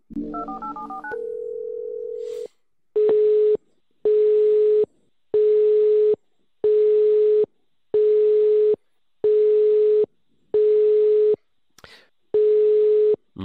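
Telephone keypad tones being dialed, then a steady tone and a long series of evenly spaced tone pulses as a call rings out with no answer. The pulses repeat at a regular rhythm, alone and without voices.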